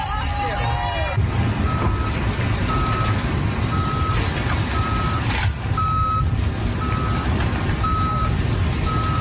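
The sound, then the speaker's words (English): Garbage trucks reverse while clearing tents and belongings from a homeless encampment. A steady, evenly spaced series of high warning beeps sounds over a continuous diesel engine rumble, and a murmur of voices runs underneath. “That was the sound of garbage trucks that were pulling out the tents and other belongings of the homeless men who were evicted from the spot.”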